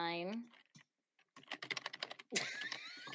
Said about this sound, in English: Oh, are we Googling it? There's the typing.